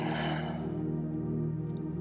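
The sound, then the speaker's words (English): Deep breathing during a slow breathing exercise: a soft, breathy rush of air at the start that fades within about a second, over a steady low musical drone. “Inhale nice and big for 2. Exhale for 2.”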